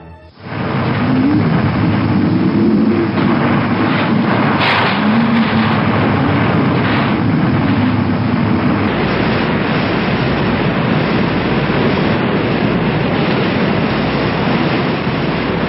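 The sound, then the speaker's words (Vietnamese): A storm at sea with crashing waves and thunder around a tossing ship, heard as a loud, unbroken roar of wind and water with no pauses. “mặt biển sôi trào dữ dội. Giữa cơn bão tố ầm ầm, tàu chia ba trên mặt biển thoát cao thoát thấp, bị hết cơn sóng này đến cơn sóng khác quăng quật”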